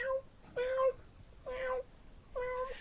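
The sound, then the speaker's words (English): A cat meowing in a few separate, evenly spaced, moderately loud calls, each a short tonal wail with brief pauses between. “That's its comfort cat. That's the cat that it keeps company in the sack to keep it calm.”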